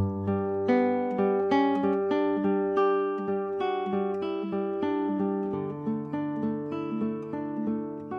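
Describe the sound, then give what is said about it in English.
An arpeggiated pattern on a G chord picked on guitar, the bass note on the sixth string at the third fret, rings out as a steady run of plucked notes that overlap and sustain. “Now there's a very nice arpeggiated pattern you can do on the G. It sounds like this.”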